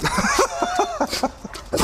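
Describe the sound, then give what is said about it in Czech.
A golden retriever, a large breed, barks at a parish house in a quick run of short, sharp barks that repeat at a steady, insistent pace. “Bacha, pes. Je hodně velké plemeno. Ano, zlatý retriever.”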